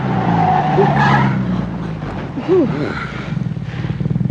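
A car skids under hard braking with the handbrake pulled. A low engine drone runs throughout, with a short squealing burst partway through.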